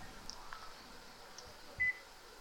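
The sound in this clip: A barcode scanner gives a single short, mid-high beep as it reads a cornbread mix package, over a faint steady background hum.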